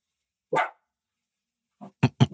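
A dog barks in a few sharp bursts: one bark, a pause, then a faint yelp and a quick cluster of louder barks at the end.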